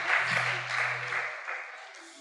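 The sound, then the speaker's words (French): Quiet applause from a church audience for a woman, a soft wash of clapping that gradually fades, with a low steady tone beneath it in the first half. “Ah, très bien. Nous allons acclamer pour la sœur.”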